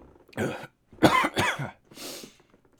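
A short series of harsh, loud coughs from a person who inhaled water while drinking, the last one weaker and breathier.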